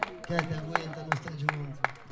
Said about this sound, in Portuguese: Salva de palmas aí, s'il vous plaît.